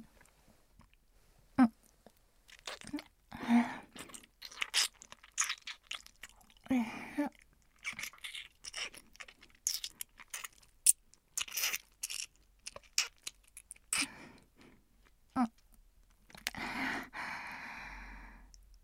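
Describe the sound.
Chocolate is bitten and chewed in soft, intermittent crunches and moist mouth clicks, with breaths and sighs between bites, all quiet and close.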